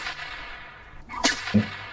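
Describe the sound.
A whip-like lash sound effect for a monster lashing out in a tabletop role-playing game: one sharp crack followed by a quick, lower thump, over faint background noise.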